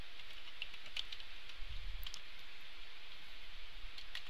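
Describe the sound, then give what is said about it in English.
A password being typed on a computer keyboard: faint, scattered keystroke clicks at an irregular pace over a low steady hiss, with nobody speaking. “I'm going to type in my current password.”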